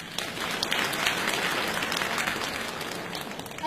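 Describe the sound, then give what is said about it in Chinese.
Audience applause welcomes performers at a televised comedy sketch competition. Many hands clap in a dense, even clatter that holds steady throughout, with no voices. “掌声请出来”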